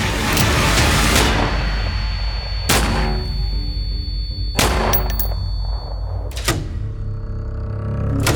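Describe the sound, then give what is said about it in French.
Gunshots fired at close range by a burglar at a woman in a bedroom: several sharp, loud bangs break through a dense, steady background, with uneven gaps between them. “Le cambrioleur s'avance et il tire sur Rachel. 3 balles, à bout portant.”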